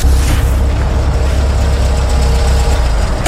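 A car's engine idles steadily as it is being parked, a loud, even low rumble that holds without any change in pitch throughout.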